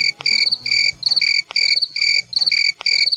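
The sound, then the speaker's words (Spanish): A man imitates a cricket chirp with his mouth, producing bright, high, trilling chirps in repeated short bursts at an even, steady pace. “El grillo. Yes. Un grillo. Yes, listen. Con la boca.”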